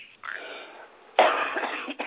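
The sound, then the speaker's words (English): A person with a cold coughs: a short throat sound at the start, then a loud, harsh cough that rattles on raggedly before a final catch, with no talking. “I'm sorry, excuse me while I choke. I've got a cold.”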